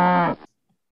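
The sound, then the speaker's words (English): A cow moos once, a short, deep, strongly tonal call that cuts off abruptly and leaves silence. “It's not a cat stuck in a tree. It's another three-letter animal, a cow.”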